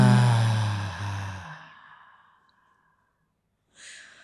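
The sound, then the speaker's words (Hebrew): A deep relaxation breath: a long, voiced sigh-like exhale through the mouth that slowly fades away, then after a silence a short, airy breath drawn in through the nose. “בואו ניקח שאיפה עמוקה דרך האף, ונענח דרך הפה.”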